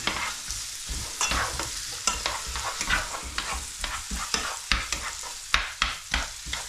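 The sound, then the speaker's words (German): Onions sizzle in hot fat while a spatula stirs them, giving a constant crackling hiss broken by many quick, rhythmic scraping strokes against the pan. “nehmen wir unseren Pfannenwender mit und geben jetzt die Zwiebeln ins Fett. So, dass sie schön glasig werden.”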